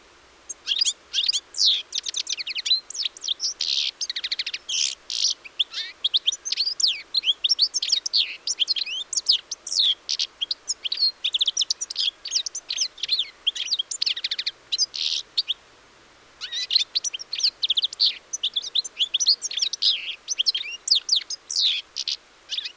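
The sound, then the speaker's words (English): Goldfinch song: a steady stream of high, rapid twittering chirps and liquid trills, loud and alone, with a brief gap near the end before the singing resumes. “the song, you'll soon be picking out groups of goldfinch as they pass overhead.”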